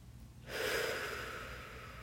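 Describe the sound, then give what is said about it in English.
A deep breath, one long airy rush of air that starts after a brief quiet moment and holds steady to the end. It is soft, unvoiced and heard alone, with no talk. “Why don't you take a deep breath with me?”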